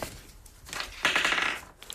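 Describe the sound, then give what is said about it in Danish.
A die rolled during a board game: a brief rattling clatter lasting about half a second, with a few faint knocks before it. “Så skal du slå en terning også, jo, ikke?”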